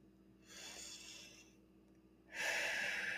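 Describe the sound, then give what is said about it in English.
A deep breath drawn slowly: a soft, airy inhale, a short pause, then a louder, rushing breathy exhale, faint overall and with no voice. “just take a deep breath right there with me.”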